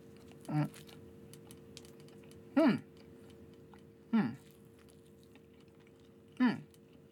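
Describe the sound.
Bites and chewing on an azuki bean sweet, four short crisp bursts spaced a couple of seconds apart, fairly quiet, with no talking.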